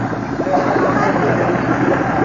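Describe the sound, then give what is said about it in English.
A comic sound effect of a submarine engine being cranked up: a steady rumbling, whirring engine drone held at an even, fairly loud level. “Oh, I need a submarine. I'll just crank it up, and you're on your way underwater.”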